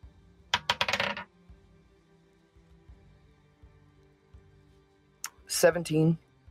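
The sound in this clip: Dice clatter across a table during a tabletop role-playing game history check, a brief burst of rattling bounces early on, followed after a quiet stretch by people talking.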